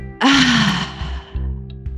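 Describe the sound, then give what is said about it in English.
A long, audible exhale with a low voiced sigh at the end of a deep-breathing exercise, breathy and fairly loud. Quieter low sounds follow. “let's just end with our let it out deep breath. Inhale, let it out.”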